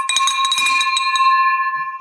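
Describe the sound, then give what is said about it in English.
A bell rings inside an office building with a bright, sustained metallic tone made of rapid repeated strikes. It lasts about two seconds, then stops abruptly. “that's just that's the first bell of many. People in this building, I'm telling you, hate that bell.”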